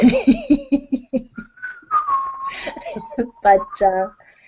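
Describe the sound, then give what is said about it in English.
A person whistles a short wavering tune of a few sustained notes, with bursts of voice just before and after. “Don't whistle, it's obnoxious.”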